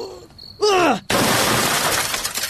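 A television being smashed gives a sudden loud shattering crash, with breaking debris rattling on for over a second. A short, falling vocal cry comes just before the crash.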